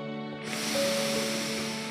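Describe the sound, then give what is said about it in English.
A deep breath is drawn in: a soft, airy hiss begins about half a second in and holds steadily over a quiet, sustained musical tone. “Go ahead, take a deep breath in,”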